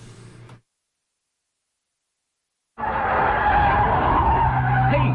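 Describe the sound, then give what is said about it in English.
Car taking a curve fast with tires skidding: a brief sound, then silence, then a loud, sustained tire squeal mixed with engine roar. “Slow down on these curves. You took that one on two wheels.”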